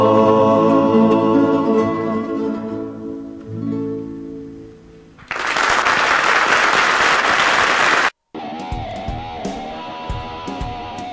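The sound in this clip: Applause breaks out as music ends, a dense burst of clapping lasting about three seconds before stopping abruptly; a voice and music follow.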